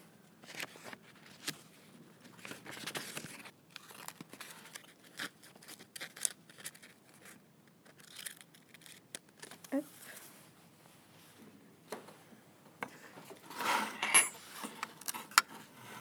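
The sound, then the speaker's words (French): Scissors cutting a paper coffee filter: a series of short, crisp snips with light paper rustling, irregularly spaced and fairly quiet. “Je vais couper le filtre à café pour mettre après le blob dessus.”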